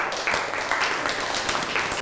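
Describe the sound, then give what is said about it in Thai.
Classmates in a classroom clap for a student, a steady patter of many hands at moderate, even volume for a couple of seconds. “นั่งลงได้ครับปรบมือให้กับเพื่อน”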